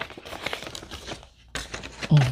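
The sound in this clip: Crinkling and rustling of a piece of junk mail paper being handled, heard as a few uneven bursts of dry crackle with short pauses between them.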